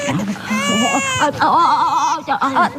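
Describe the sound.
A baby cries while held by an unfamiliar person after just waking. The cry comes as loud, wavering wails and whimpers, broken into several uneven bursts with rising and falling pitch.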